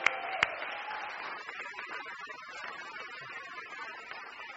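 A church audience applauds to welcome people in. The clapping forms a steady, fairly soft wash that starts with a sharp snap and thins out gradually as it goes on.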